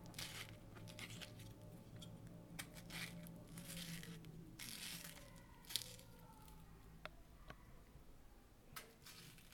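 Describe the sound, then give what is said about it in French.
A ripe nectarine sliced with a knife gives quiet, squishy tearing and crackling noises scattered over several seconds, broken by a few sharp little clicks. “Bruit d'une nectarine en train de se faire couper.”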